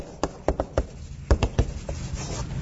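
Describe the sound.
Handwriting by hand gives a few soft, scratchy strokes and light taps, spaced irregularly and fairly quiet, with no talk over them.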